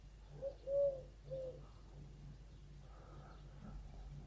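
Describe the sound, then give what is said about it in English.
Pigeons cooing in a back garden: a few soft, low coos cluster in the first second and a half, then fainter murmuring calls follow. No one speaks. “Now the pigeons are winding me up that side of the house. Now in the back garden.”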